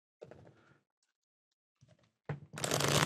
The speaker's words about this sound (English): Okay, I'll shuffle them up,